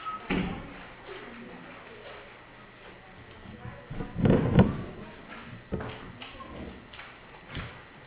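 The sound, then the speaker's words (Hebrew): A door being closed, one dull thud with a brief rattle about midway, set among scattered knocks and ongoing talk. “אולי נסגור את הדלת?”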